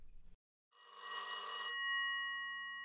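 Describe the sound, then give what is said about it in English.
A telephone bell rings once: a loud, bright metallic burst lasting about a second, then a long, steady ringing tail that slowly fades. “Should we answer that? It's probably a debt collector. Let it go to voicemail.”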